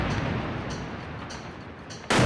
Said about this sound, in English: That was the sound of a 13-storey building that housed both the Associated Press and Al Jazeera, destroyed by Israeli precision bombing.